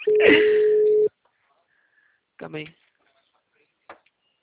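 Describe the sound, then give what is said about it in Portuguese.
A telephone ringback tone while placing a call: one steady, single-pitch beep lasting about a second, then silence broken by brief faint voice fragments. “Também tô ligando aqui também. Algum ele vai ter que atender.”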